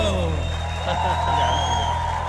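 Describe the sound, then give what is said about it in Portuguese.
Applause from an audience, a dense steady wash of clapping with a few whistle-like tones above and a low humming bed underneath, holding an even level throughout. “Uma salva de palmas, milionário.”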